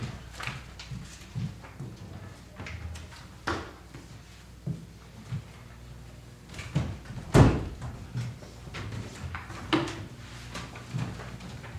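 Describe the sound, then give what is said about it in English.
A door is shut with one solid, loud thud that stands out among a run of lighter knocks and handling clatter. No one talks over it. “I'm going to shut the door.”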